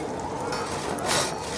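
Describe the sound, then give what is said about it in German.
Hand-sawing through pack ice gives a continuous, broad rasping scrape that holds steady throughout and swells briefly louder near the end. “Seit 17 Tagen sägen und sägen wir.”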